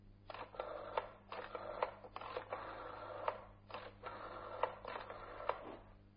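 A telephone is dialed to place a call: several bursts of mechanical whirring, each carrying sharp clicks, with short pauses between them, all at low volume.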